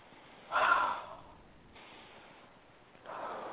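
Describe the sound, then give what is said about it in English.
Deep breath in and out during a guided anxiety-relief exercise, a soft airy rush that swells then fades, followed by quiet and another breath starting at the end. “And take a deep breath.”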